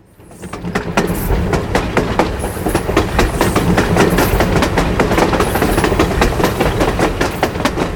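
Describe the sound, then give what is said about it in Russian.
High-speed train heard from beneath a wagon: a loud, rhythmic clickety-clack of wheels over rail joints rises quickly at the start, then holds, with many sharp clatters over a continuous rumbling roar and no voices. “Скоростная магистраль, дно вагона.”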